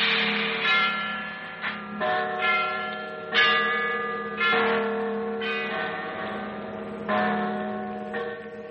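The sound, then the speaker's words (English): Bells ring in a steady peal of many overlapping, resonant strikes with long sustained ringing tones and an uneven rhythm. No other sounds are heard. “bells. Bells”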